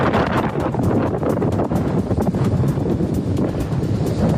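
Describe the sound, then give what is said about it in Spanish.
Strong gusts of wind during the Mierla forest fire roar steadily and buffet the microphone in a dense, continuous rush with no voices. “Son horas complicadas también para los equipos de extinción. Se han desatado fuertes rachas de viento que empeoran la situación.”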